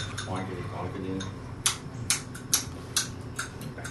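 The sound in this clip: A spoon clinks against a coffee cup as someone stirs, giving five light, evenly spaced taps that follow a brief stretch of talk.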